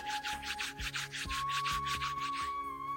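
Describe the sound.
Two hands rubbing together, a dry papery friction in a steady series of even back-and-forth strokes, about ten in quick succession, moderately loud with no voices.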